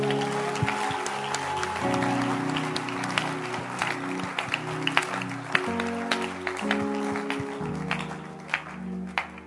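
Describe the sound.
Audience hand clapping makes a dense, continuous patter of many claps over sustained steady tones, with a few sharper claps standing out near the end.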